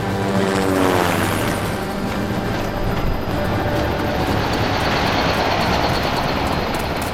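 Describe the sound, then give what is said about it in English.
Aircraft engine roar, a loud, dense and steady rumble with a high hiss that holds evenly throughout without pauses. “This must be it. That aircraft is North Island VOS.”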